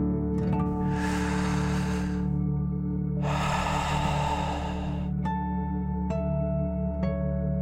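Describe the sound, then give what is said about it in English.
A deep inhale and a long exhale, taken as a guided dragon breath with hands resting on the heart. Each breath is a broad, airy rush of about two seconds over steady soft music, followed by a few bright tones. “Keep your hands on your heart, and let's take three more deep dragon breaths. Deep breath in and out.”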